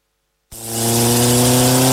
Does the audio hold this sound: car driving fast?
yes